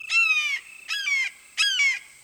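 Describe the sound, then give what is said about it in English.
A red-shouldered hawk calls in the distance near dark water, giving three loud, harsh, drawn-out screams spaced evenly apart, each sliding slightly downward in pitch. “In the distance, a red-shouldered hawk responds.”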